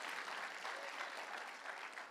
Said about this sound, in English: now if you're going to clap, give me a good clap. Don't patty cake in the house of the Lord.